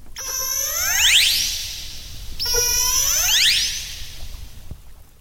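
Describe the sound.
Orcas exchange communication calls: two high, harmonic whistling cries with sweeping, bending pitch, separated by a pause, over a constant low hiss and rumble.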